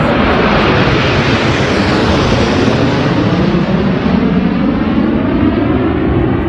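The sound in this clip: Aerobatic team jets roar overhead in a loud, continuous, broad engine rush that holds steady throughout, with a rough, buffeting texture and no voices.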